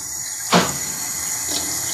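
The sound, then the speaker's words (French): Heavy rain pouring down as a dense, steady hiss, with one brief louder surge near the start. “Il pleut, c'est fou. Hein ? Incroyable. Oh ! Incroyable. Oh, ça tombe à verse.”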